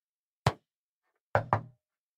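Three sharp knocks on a hard surface answer a yes-or-no question: a single knock, a pause, then two quick knocks close together, each clear against silence.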